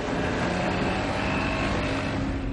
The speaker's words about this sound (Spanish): Tron desata una barca, monta en ella, Enciende el motor. Se dirige hacia el centro del lago.